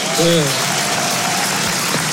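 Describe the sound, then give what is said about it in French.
An audience gives a standing ovation, and the dense, continuous applause carries on under people talking. “Et voilà. Standing ovation.”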